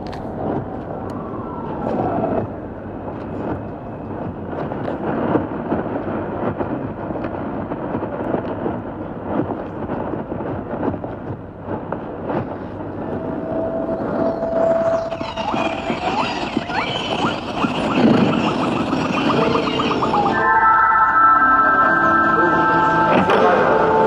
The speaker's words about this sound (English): while I'm packing it right now, you guys can listen to some Los Angeles traffic and ambience, because I'm on a hilltop at the moment. Here, you can listen to this in the background.